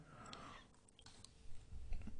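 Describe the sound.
Quiet keyboard typing as a search is entered into Google on a computer. Light, irregular key clicks come in small clusters, followed by a few duller taps toward the end, with no voices.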